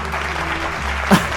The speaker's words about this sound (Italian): Un applauso, un applauso.